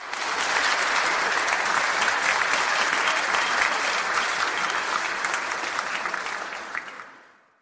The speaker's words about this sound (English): And then I stepped into a room full of humans. The applause came before I was ready for it.